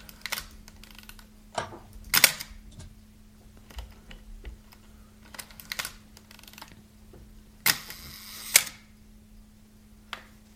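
A Nikon F2 Photomic film camera's shutter and mechanism give several sharp, isolated mechanical clicks over quiet gaps, with a longer rattling burst of linked clicks near the end.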